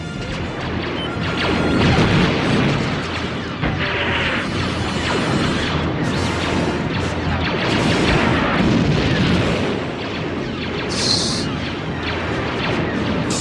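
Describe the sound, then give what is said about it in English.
Blaster sound effects created by Ben Burt: a dense, loud barrage of noisy blasts and crashing bursts that overlap almost without pause. “That's a lot of blaster sounds. And the story of how Ben Burt came up with those is kind of interesting”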